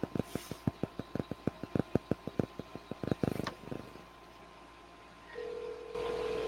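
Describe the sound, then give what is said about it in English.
A telephone dials a call, with many quiet, evenly spaced clicks in a quick, regular rhythm. After the clicks stop there is a short lull, then a steady low tone sounds to the end. “Let me dial in because I got to call him. He lives in New York, so let me dial in”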